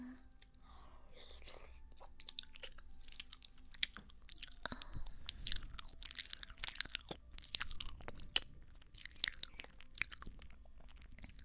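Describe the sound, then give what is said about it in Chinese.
Someone chews soft cake with many irregular, soft, moist clicks and smacks that grow busier after the first few seconds. “好吃吗？我记得你很喜欢吃姐姐做的蛋糕，软软糯糯的。”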